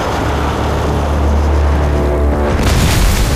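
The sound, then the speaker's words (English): A grenade explosion, heard as a continuous, heavy low rumble that breaks into a sharper, brighter burst of noise near the end. “Someone planted a grenade.”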